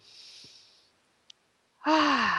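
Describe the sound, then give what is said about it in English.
A single deep breath during a guided meditation: a soft, airy exhale that fades into silence. After a short pause, a voice begins. “let's all just take a nice breath”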